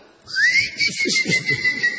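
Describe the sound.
Whistling rises in pitch, then holds a steady, bright tone for about two seconds. Faint low, uneven sounds run beneath it.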